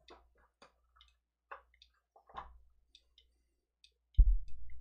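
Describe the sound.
A clicky d-pad on a wireless fighting-game controller gives many short, sharp, faint clicks at an irregular pace, followed by a louder low thud near the end.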